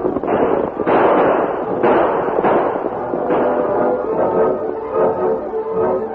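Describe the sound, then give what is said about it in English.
Outlaws on horseback fire gunshots, several sharp, loud reports at irregular intervals, each with a brief trailing decay, over a continuous muffled rumble. “As the outlaws rode out in front of the buckboard, firing shots over the heads of the deputy and the masked man, the Lone Ranger”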